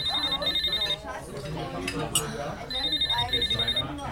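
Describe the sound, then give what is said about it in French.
A telephone bell trills in two high, bright ringing bursts, each split into a quick double pattern, while people talk over and between the rings. “On avait dit pas de téléphone, chéri. Pas de téléphone intempestif.”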